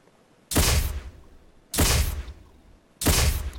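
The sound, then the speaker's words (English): Three-shot gun salute played from a soundboard: three loud, booming gunshot blasts, evenly spaced about a second apart, each hitting sharply and leaving a short decaying tail before the next. “I just found out that my finger guns are super powerful. So I'm going to give you a three shot salute here. All right, everybody join me in giving Steve a three-shot salute for his return.”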